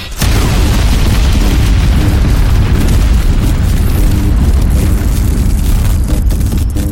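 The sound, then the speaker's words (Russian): An energy blast fired by a giant mechanical machine erupts abruptly into a huge, loud, deep roaring boom. It holds as a dense, sustained rumble from start to finish with no pause. “услышали за спиной звук аккумулирования энергии заряда, который, по всей видимости, запустила эта механическая громадина. После чего раздался выстрел.”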